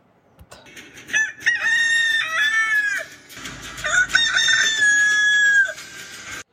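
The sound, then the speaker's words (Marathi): A rooster crows twice in a row: two long, loud calls with rich, steady harmonics that hold and then trail off, with no voices. “थंडीमध्ये दिवस लहान असताना तिचे कोंबडे उशिरा उठून आरवत असत”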